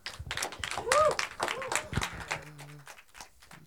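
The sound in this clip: A church audience applauds and cheers to welcome a guest pastor, a few seconds of clapping mixed with voices and a brief whoop, fading slightly toward the end.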